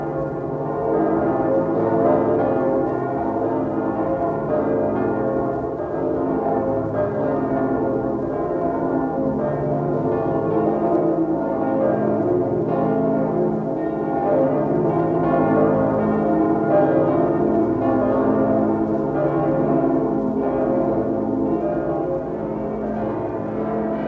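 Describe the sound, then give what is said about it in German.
Church bells of St. Michael's Church in Hamburg ring in Christmas: a steady, continuous peal of several overlapping bells, loud and unbroken throughout with no voices. “Die Glocken der Michaeliskirche in Hamburg.”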